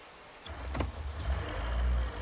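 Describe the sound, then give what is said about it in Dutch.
A car engine rumbles as the car sets off. The low, faint drone begins after a moment of near quiet and then holds steady. “Zo jongens, nu rijden we naar de douane.”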